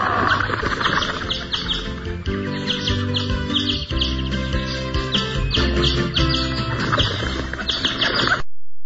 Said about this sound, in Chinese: 迅速的打开所有的鸟笼，一时之间，空气中充满着翅膀拍动的声音，鸟儿们高兴的飞来飞去。